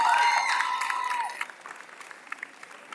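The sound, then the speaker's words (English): Audience applause for student performers at a school talent show. Voices sound over the opening clapping, which then thins to a few scattered claps. “Let's give them another round of applause”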